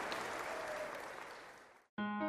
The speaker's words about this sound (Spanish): Ahora démonos un aplauso todos, porque estamos trabajando por una mejor calidad de vida.